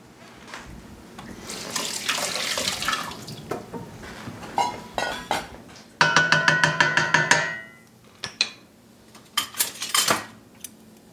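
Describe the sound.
Tap water runs and splashes as a hand is rinsed at a kitchen sink while someone cooks potatoes and leeks, with clinks of dishes and a quick run of rhythmic taps in the middle.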